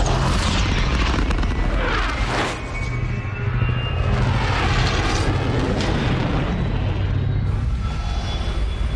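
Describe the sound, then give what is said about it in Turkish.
A spaceship's dark matter engines starting at full power, a loud, continuous low roar with sweeping, jet-like whooshes swelling over the rumble. “Karanlık madde motorlarını çalıştır. Tam güç ileri.”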